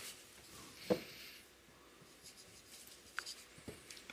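Pen or pencil scratching on paper as someone writes by hand: faint, short, dry scrapes in a few scattered strokes over a quiet background.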